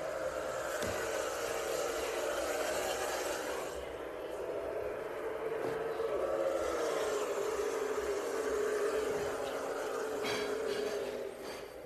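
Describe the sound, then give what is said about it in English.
Continuous engine roar from stock cars starting a Cup Series playoff race at Kansas at the green flag, a dense, steady wash of noise lasting throughout with no clear breaks or distinct individual passes. “There's no blaze like the playoffs. Cup Series off at Kansas. Getting ready for the start.”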